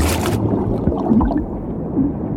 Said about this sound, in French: Le faisceau s'approche de moi. Ils vont me voir. Je plonge.